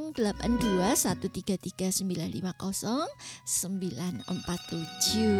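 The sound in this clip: A telephone rings for an incoming call, a thin, steady tonal ring sitting beneath continuous talking.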